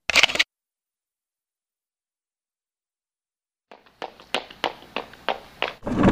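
A camera shutter snaps once as a sharp, bright click, followed by a long silence and then a quick series of softer clicks and taps.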